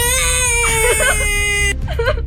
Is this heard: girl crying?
yes